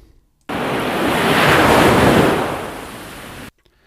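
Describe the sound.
Ocean waves sound effect introducing a tide report: a rushing surf swell that starts abruptly, builds to a broad hiss in the middle, then recedes and cuts off after about three seconds.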